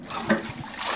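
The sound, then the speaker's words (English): A toilet flushes at an office with a faint, steady rush of splashing water and a brief louder gush early on. “That's the sound of a toilet flushing at WESA offices.”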